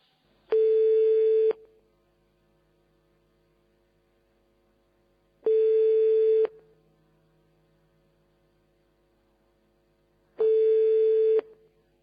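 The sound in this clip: A ringing tone plays on an outgoing telephone call to a hotel: three steady tones, each about a second long and spaced roughly five seconds apart, with near silence between them.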